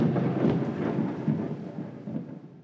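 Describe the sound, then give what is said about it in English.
Thunder rolls as a sound effect for the Call Lightning spell: a loud, continuous low rumble that swells and fades in waves with no talk over it. “I am going to call lightning.”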